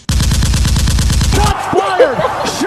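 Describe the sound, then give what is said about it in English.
A gunshot sound effect: a rapid burst of automatic gunfire, many loud sharp shots in quick, even succession, stops abruptly and gives way to brief voices. “Shots fired!”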